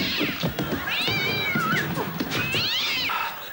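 Cat meowing: a few drawn-out, high, wavering meows with rising and falling pitch, fairly loud over a busy noisy background, with no talk.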